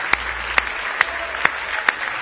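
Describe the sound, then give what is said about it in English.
Congregation clapping hands in praise during an evening church service: five sharp, evenly spaced claps in a steady rhythm over a soft continuous crowd wash. “Give Jesus one more big hand clap of praise tonight.”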